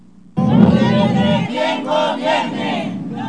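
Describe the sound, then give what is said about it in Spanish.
A crowd at a peaceful protest march: a loud mass of voices shouting together bursts in abruptly and carries on steadily, with individual cries rising out of the din. “nosotros estamos haciendo nuestra marcha pacífica, nuestra protesta aquí en estos momentos”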